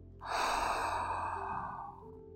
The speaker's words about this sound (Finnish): hengitä sisään ja ulos